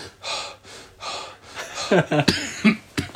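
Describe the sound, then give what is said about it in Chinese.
A voice imitates the rapid gasping and deep breathing of a climber trekking at over 5,000 m around Mount Kailash, a few quick, heavy, airy breaths, followed by talking. “哎呦，对，就是刚刚那种急促，然后又是深呼吸的，连续的在走。”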